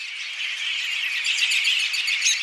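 An American robin calling, a bright, high run of rapid chirps and tweets that continues without a break at a steady, fairly loud level, with no voices present.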